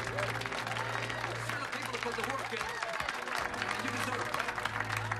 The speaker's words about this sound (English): I'm going to applaud you. I'm going to applaud all of you.